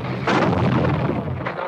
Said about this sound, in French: Vous entendez de temps en temps les 8 balles qui tapent.